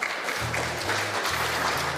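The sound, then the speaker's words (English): Church service audience applauding a musician, steady dense clapping throughout with low, sustained tones beneath it. “And also give Ian a round of applause for stepping up as a musician.”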